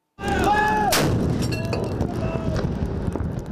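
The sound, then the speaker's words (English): A 25-pounder howitzer on a raft at Kallang Basin fires during a presidential 21-gun salute at a national parade. One sharp, loud blast stands out over a steady rumble of noise, with voices underneath. “four 25-pounder howitzer guns on the Mobility 3rd-generation raft will fire a 21-gun salute.”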